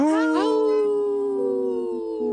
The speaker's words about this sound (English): Howl. Right on cue. We have three howlers.